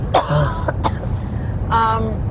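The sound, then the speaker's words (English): A person coughs and clears their throat in a few short, rough bursts, then makes a brief voiced sound, with no talk over it. “I'm going to cough, so hold on a second.”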